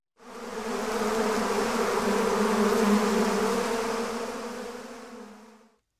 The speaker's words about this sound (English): This is a beehive.